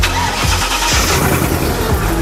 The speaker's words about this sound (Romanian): 4x4V8, în jur de 350 de cai, aspirați, benzină, numai bun.